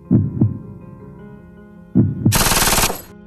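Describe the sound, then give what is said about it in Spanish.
Gunfire from a Tec-9 pistol aimed into the sky: a few deep, heavy thumps come first, then a loud, rapid burst of automatic shots that crackles sharply for about half a second and stops abruptly. “Sale del auto, se queda mirando fijamente la, la Tec 9, la pistola, la apunta hacia el cielo, presiona el gatillo”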